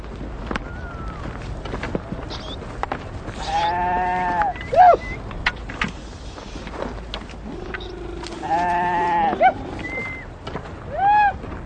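A flock of sheep bleats as herders get ready to drive them uphill. A few loud, wavering bleats stand out from a low background rumble, with quieter scattered calls between them.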